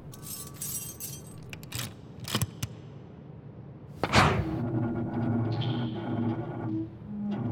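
A heavy door to a monastery's relic chamber being opened: a series of sharp knocks and clanks, then a loud bang followed by a sustained, grinding, creaking rumble.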